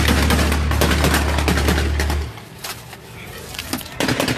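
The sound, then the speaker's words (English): Machine gun fire following an explosion: many rapid, sharp cracking shots in a dense burst, then sparser shots. “After the first boom, probably like 7 to 10 seconds, you hear the machine gun fire.”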